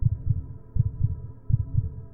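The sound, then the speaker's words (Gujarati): A loud, low pounding heartbeat effect for a dramatized Gujarati reading of Poe's The Tell-Tale Heart: three lub-dub double thumps in a steady, heavy rhythm, with no voices. “આ ભયંકર ધબકારાઓ તમને સંભળાતા નથી”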